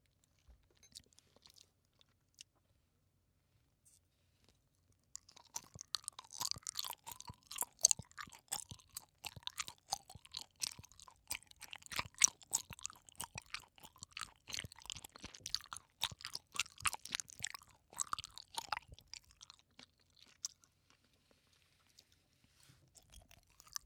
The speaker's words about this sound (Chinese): 这个软糖好吃。嗯，好吃。